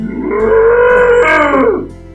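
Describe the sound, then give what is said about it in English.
A human voice imitates a cow's moo with one long, loud, droning call. It holds steady, lifts in pitch near the end and then drops away. “oh, it's a cow!”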